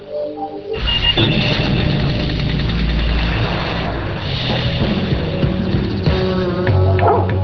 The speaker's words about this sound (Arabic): صدقوا أن الكلب كودي يستطيع نطق 12 كلمة. هيا قل مرحبا، قل شكرا.